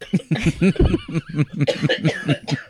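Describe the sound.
Coughing from chocolate stuck in the throat comes as a rapid string of many short, harsh, voiced bursts, loud and fairly even in rhythm.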